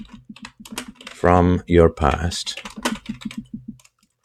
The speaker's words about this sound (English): So I'll repeat the question. So the question is, let me just type it in too.